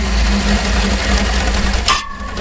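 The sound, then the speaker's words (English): A V8-engine chainsaw runs with a loud, steady droning roar over a heavy low rumble, then cuts off abruptly near the end, leaving a faint thin whine. “Just a little bit dangerous, the V8 engine chainsaw there.”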